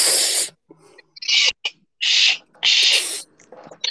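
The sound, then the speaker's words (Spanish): Hissing S sounds made through clenched teeth with the mouth open, drawn inward as a breathing exercise. Several sharp, bright bursts of airy hiss, one very short, separated by brief quiet gaps. “Con la boca abierta, los dientes apretando y diciendo la S.”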